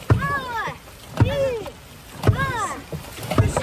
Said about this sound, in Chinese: 爱康生命之舟龙舟队。我们来听听他们在水上的飒爽风采。